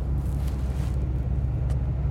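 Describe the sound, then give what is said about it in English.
A car drives down a bad road with a steady, low rumble of engine and tires, even and continuous for about two seconds. “I'm going to drive down the road a little bit and rethink this.”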